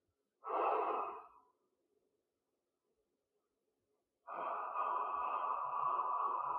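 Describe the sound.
Exhale followed by a spray inhaled on one breath, six pumps taken during it: a short breathy burst, a silent pause, then a long steady hissing inhalation lasting over two seconds, with no talk.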